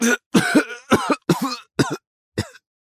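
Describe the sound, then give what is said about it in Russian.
Harsh coughing from a man in a fog-filled room: a rapid run of about six short, loud, voiced coughs with brief gaps between them, the last one quieter, with no other sound. “Не договорив, он закашлялся. Буквально через пару мгновений его недуг подхватили все остальные.”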